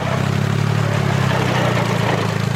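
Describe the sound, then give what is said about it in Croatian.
A tractor engine rumbles steadily as tractors head into the fields, a loud, continuous low-pitched drone without breaks. “Traktoristi pune rezervoare i ulaze u njive.”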